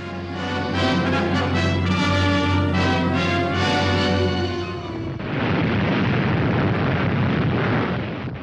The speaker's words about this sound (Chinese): 1945年8月6号，美军战斗机向广岛投掷了一枚原子弹